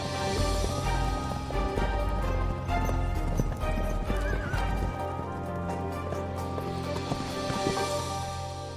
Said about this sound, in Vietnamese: Ngay lập tức, một tớp lính cưỡi ngựa rời khỏi kinh thành, nhằm hướng Khâu Phạ đi một mạch không ngừng nghỉ.